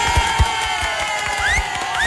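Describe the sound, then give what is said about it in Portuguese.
Applause and cheering from an audience, celebrating a prize winner announced on a radio program: a dense, steady wash of crowd noise with a few low thumps and a couple of rising whistles or whoops near the end. “Bota a sorte nisso aí, vocês não vão aplaudir o cara.”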